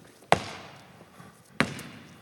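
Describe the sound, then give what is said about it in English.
Two sharp basketball bounces on a hard floor, dribbled to demonstrate game fundamentals. Each is a loud, crisp thud with a short ring, spaced well apart, with quiet between and no voices. “Do you know the fundamentals of the game? Dribbling.”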